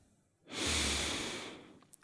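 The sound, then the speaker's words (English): One full, deep breath drawn in through the nose during a guided group breathing exercise: a loud, rushing airy hiss that rises sharply, holds, then tapers off, with a faint click at the end and no talk. “Okay, full breath in through the nose.”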